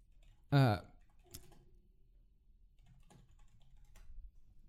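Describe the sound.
Typing a search on a computer keyboard, heard as a few faint, sparse key clicks that follow a short, loud vocal sound at the start.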